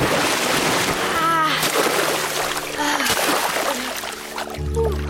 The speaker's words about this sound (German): Alle drei rennen ins Wasser. Vorher springe ich noch. 3, 2, 1, los!